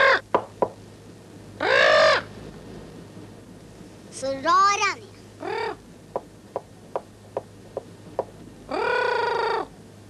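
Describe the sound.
A female parrot squawks several times with harsh, raspy calls, some long and some clipped, separated by a run of sharp, quick clicks.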